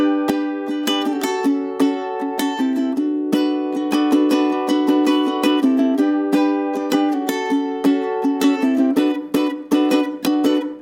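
Chords strummed on a tenor ukulele, heard alone: many bright, rhythmic strokes ringing out at a steady, even level throughout.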